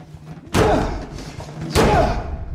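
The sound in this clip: Two heavy, booming thuds against a broken door come as a man shoves his whole body into it and then kicks it. Each impact is loud and sharp, with a rumbling decay.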